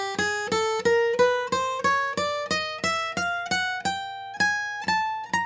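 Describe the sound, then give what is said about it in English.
A guitar plays a chromatic run, climbing the neck one fret at a time: many evenly spaced plucked notes, each decaying briefly, stepping steadily upward in pitch. “Now, chromatics are essentially just playing one fret at a time, climbing the neck in half steps. It would sound like this.”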